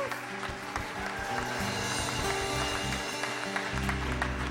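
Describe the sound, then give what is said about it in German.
Applause given in thanks to a visiting pastor for his ministry: a soft, continuous patter of many hands clapping over steady background music. “Lass uns ihm mal einen kräftigen Applaus danken für seinen Dienst.”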